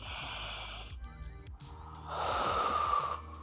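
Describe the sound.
A deep breath in, heard as a soft breathy hiss that swells for about a second near the end, over a quiet, steady musical background.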